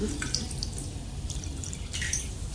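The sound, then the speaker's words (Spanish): Thin trickle of shower water running out, a steady noisy wash with scattered drip-like splashes throughout. “Estoy todo enjabonado y apenas llega un hilo de agua.”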